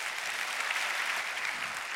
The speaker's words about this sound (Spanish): Yo le doy un aplauso a Cristo,